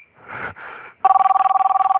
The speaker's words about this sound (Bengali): অন্য ফোনের রিং বাজছে?